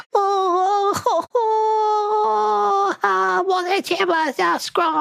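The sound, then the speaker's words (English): A voice imitates a goblin wailing, crying and keening over its fallen leader: long, high, wavering wails broken by sharp gasps and sobbing catches, growing more ragged and choked toward the end. “he rears his head back and begins to wail and cry and begins keening.”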